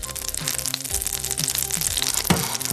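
A thick knob of butter sizzles in a hot frying pan before omelette mix goes in. A continuous dense crackling hiss with tiny spits and pops runs steadily throughout.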